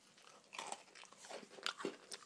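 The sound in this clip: Crunchy gingerbread cookies being eaten: a few faint, crisp crunching bites and chews in an irregular rhythm.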